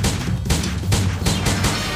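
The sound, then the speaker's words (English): Gunfire in a video game, fired at the end credits: a loud run of heavy, booming shots bursts out in quick succession, each blast broad and crashing, with no voices. “I can shoot at the credits. Die! Die!”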